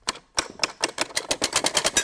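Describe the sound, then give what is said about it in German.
A mechanical beater strikes cowbells, a tin can and a metal plate, producing a rapid, uneven run of many sharp metallic clacks and clinks with no voices. “Kuhglocken. Eine Dose und so eine Metallplatte. Und wenn man dann darauf drückt, dann schlägt der Schläger sozusagen dagegen.”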